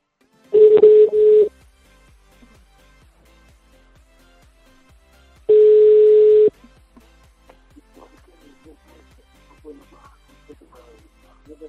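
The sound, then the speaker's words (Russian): Telephone tones sound while a number is dialled: two long, steady, mid-pitched beeps separated by a pause of a few seconds, with soft clicks and faint murmuring sounds in between and after. “Так, сейчас еще набираю по номеру.”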